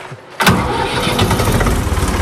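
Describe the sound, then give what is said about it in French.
A tractor engine starting on a farm: after a brief quiet moment it catches abruptly and settles into a loud, steady running rumble that holds to the end. “Puis, alors, on va démarrer le tracteur.”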